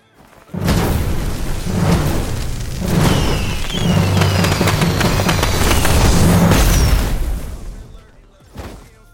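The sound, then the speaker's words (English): Fireworks explode from the Nitrojerry victory emote in a video game: a dense run of booms and crackles with whistling streaks, loud and continuous for several seconds, then fading, followed by a small final pop. “I'm going to go ahead and let you go ahead and take a listen to how this sounds when you do this.”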